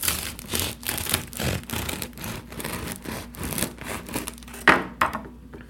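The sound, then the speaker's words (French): Bread knife sawing through a compact country loaf into thick slices, a steady run of many rasping, crusty strokes in even rhythm, with a couple of sharper crackles near the end. “Et du coup, on va couper le pain.”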